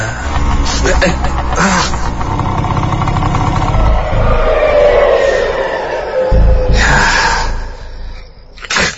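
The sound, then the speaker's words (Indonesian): An old motorcycle engine revs hard, producing a loud, continuous rough roar that fills the whole clip, with a strained rise in pitch through the middle. “Dan ketika ku gas motorku lumayan kencang, tiba-tiba”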